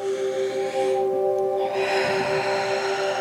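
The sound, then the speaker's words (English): A big deep breath taken during a guided meditation, heard as two long, airy breath sounds separated by a brief pause over a steady soft drone. “So take a big deep breath”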